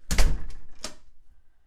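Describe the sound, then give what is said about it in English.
Doors slam in a kitchen, a couple of heavy, loud wooden thuds with a weaker knock between them, the last impact ringing briefly before fading into quiet. “All right, slamming door about to occur. Another slamming door.”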